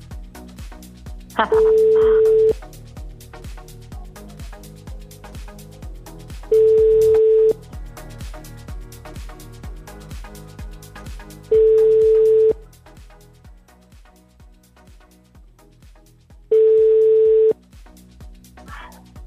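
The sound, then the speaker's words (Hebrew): Telephone ringing tones sound while a call is placed to someone: four steady, one-second tone bursts arrive about five seconds apart over low background sound. “בואי נתקשר אליה. יאללה.”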